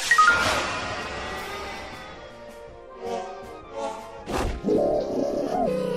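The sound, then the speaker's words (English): Venom Shot attack effect from a video game: a loud whooshing burst at the start, then a few softer thudding hits and a brief tonal swell near the end. “Faux Pandorbit used Venom Shot. Faux Pandorbit has dealt 4 damage.”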